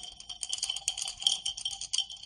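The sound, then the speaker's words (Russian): Two dice rattle inside a small cup shaken by hand, a continuous bright, fairly faint clatter of quick irregular clicks lasting about two seconds. “Калидис потряхивает небольшую чашку.”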